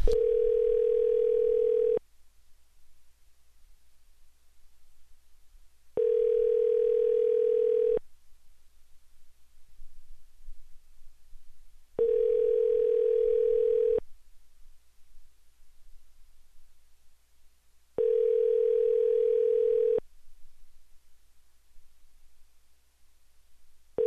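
A phone call's ringing tone sounds four times. Each is a steady, mid-pitched tone lasting about two seconds, followed by about four seconds of faint hiss, in an even repeating rhythm.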